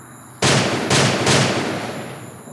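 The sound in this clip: Three loud gunshots in quick succession, each a broad, harsh blast, with a heavy tail that rolls on and slowly fades after the last shot.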